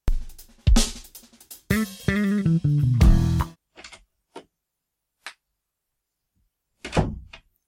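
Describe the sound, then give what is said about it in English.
A door opens as someone comes into a room, with a cluster of thuds, scraping and creaky squeaks. A few sharp, isolated clicks and taps follow in near silence. “that sound was my producer actually just coming in.”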